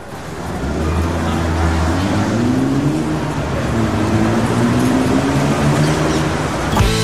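A vehicle engine starting at the opening of a song rumbles low and revs upward in pitch, then holds a steady drone before a sharp burst cuts in just before the end.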